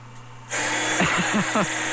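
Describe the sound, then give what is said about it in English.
A vacuum cleaner starts up abruptly nearby and runs with a steady, loud, broad whoosh and high whine, while a man talks over it. “What are we doing? Vacuuming over there or something?”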